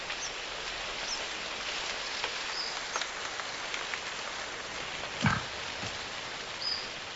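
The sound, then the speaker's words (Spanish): Steady rain falling high in Africa's Virunga mountains, at about four kilometres altitude, makes a dense, even hiss, broken by a few sharper drops and knocks. “Llueve. Otra vez.”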